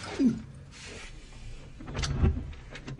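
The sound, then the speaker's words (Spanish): A hotel room door is opened, heard faintly: a short low scrape near the start, then a louder rumbling slide with a knock around two seconds in. “Aranguren despierta y se pone de pie lentamente. Luego, abre la puerta.”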